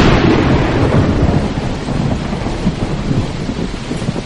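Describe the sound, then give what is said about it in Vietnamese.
Heavy rain pours steadily in a mountain thunderstorm at the mouth of a cave, with thunder rumbling low through the downpour. The roar is dense and unbroken for the whole stretch, and no voices are heard. “Mưa vẫn như trút nước, dấp sáng sấm rền bất tận, nên họ đành lùi vào trong cửa hang.”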